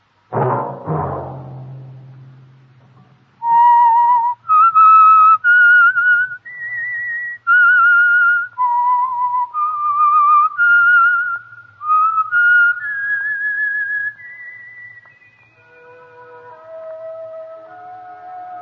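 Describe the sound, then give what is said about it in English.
A whistled theme tune: a solo melody of clear, sustained notes stepping up and down for about fifteen seconds, loud and alone, preceded by a low rumbling hit at the start. “That whistle be your signal for the Signal Oil program, The Whistler, each Sunday night at the same time.”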